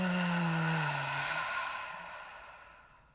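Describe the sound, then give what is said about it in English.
A long breath out during a guided breathing exercise, part of a cycle of inhaling through the nose and exhaling through the mouth. A soft airy rush fades gradually over about three seconds, with low sustained tones beneath it early on. “Inhaling through your nose, exhaling through your mouth.”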